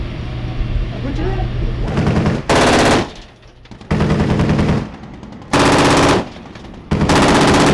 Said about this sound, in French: c'est une arme qui a une cadence assez importante, donc qui nous permettra d'effectuer des tirs plutôt précis.